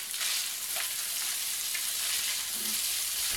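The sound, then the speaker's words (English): Onions cook down in a pan, giving off a steady, bright frying sizzle that hisses evenly throughout with faint stirring and no talking. “she's cooking down the onions”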